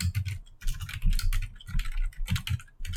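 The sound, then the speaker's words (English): Quick typing on a computer keyboard while writing notes in a document. Many quiet key clicks tap out in an uneven, busy rhythm with no talking. “I'm writing stuff down right now. Updating the old Google Doc.”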